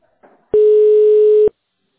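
A telephone line tone sounds while a call connects: one steady, loud, unbroken beep lasting about a second that starts and stops abruptly, with a faint short rustle just before it.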